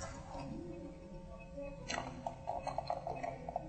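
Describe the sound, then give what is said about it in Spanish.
Raisins are tipped into a bowl while cooking, making a brief run of many small, light clicks and taps against the dish, faint after a quieter stretch. “lo revolvemos. Luego agregamos las uvas pasas”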